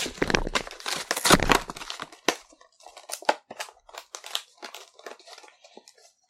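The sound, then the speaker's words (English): Plastic blister packaging of an Amiibo figure is bent and pried open, starting with loud, dense crackling and crunching, then thinning into scattered sharp snaps and faint crinkles. “Get that bending plastic sound.”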